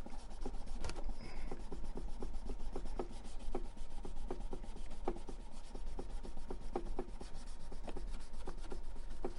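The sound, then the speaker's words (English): Fine-grit pad with a felt backing rubbed across a surface for a final pass: a quiet, even rasping made of many quick back-and-forth strokes repeating in a steady rhythm, with no voices. “The back is a felt, and the front just has a little tiny grit to it. So let me do this final pass.”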